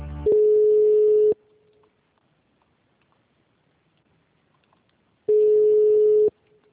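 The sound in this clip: Telephone line tones while a call is transferred: two long, steady beeps of about a second each, separated by several seconds of near silence.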